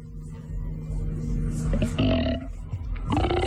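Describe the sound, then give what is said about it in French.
A bloated, upset stomach rumbles and growls in a continuous, low gurgling groan with deeper rolling bursts and tonal moans rising partway through, with no talk over it. “Écoute le bruit que fait mon ventre.”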